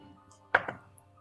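A twenty-sided die is rolled during a tabletop role-playing game, giving a sharp hard clack, a softer second knock and a faint final tick before it settles, alone without talk.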